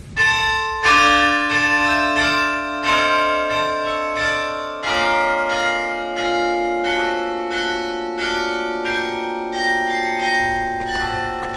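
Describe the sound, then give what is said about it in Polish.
A carillon on a town hall tower in Gdańsk plays a Saturday concert on fixed bells, striking a melodic series of bright notes whose long ringing tones overlap and sustain, with no voices. “obok mnie z wieży ratuszowej w każdą sobotę rozbrzmiewa koncert karilonowy grany przez specjalnie do tego zatrudnioną przez miasto miejską karilonistkę. No i jak brzmi karilion, proszę posłuchać.”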